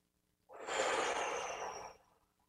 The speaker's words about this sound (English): It helps sometimes to just kind of take a deep breath out and then inhale, paying attention to your breath.